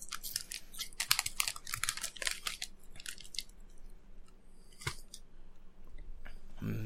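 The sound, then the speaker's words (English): Potato chips crunch loudly in quick, crisp bursts, dense for the first three seconds and then sparser, with a few isolated crunches before a low thump at the end. “Well, I got a very, very stealthy snack. Potato chips. Super stealthy.”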